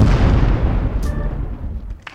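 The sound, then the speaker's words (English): A comedic explosion of pants: a loud, heavy boom that rumbles and slowly fades over about two seconds. “Caution, if you call us, your pants may explode.”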